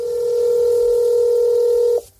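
A single steady telephone tone on an emergency service line holds one pitch for about two seconds, then cuts off abruptly and leaves near silence.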